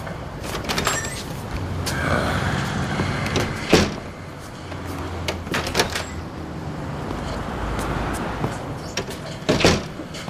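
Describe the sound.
A door sounds as someone steps out and comes back in at a barbershop, with several sharp clicks and knocks from the latch and frame over a steady background hum.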